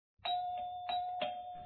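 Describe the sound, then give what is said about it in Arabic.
A doorbell rings with a few repeated bright, sustained chimes on one steady tone, each struck again before the last fades, quiet and heard alone. “وفي هذه الأثناء يا أحبائي دق جرس الباب وذهب نوفل”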